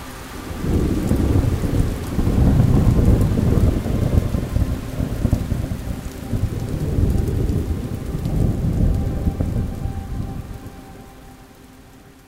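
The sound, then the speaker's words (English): Rainfall at sunset is a steady, dense downpour with low rumbling thunder beneath it. It swells and eases in waves before thinning out toward the end, with no voices. “Rainfall at sunset.”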